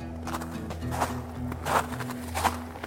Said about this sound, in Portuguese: os duelistas, eles ficam de costas um pros outros e depois eles contam 10 passos